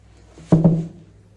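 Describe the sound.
A basket tipped over with a garden hoe makes two quick, soft thunks close together, then a short low decay fading out.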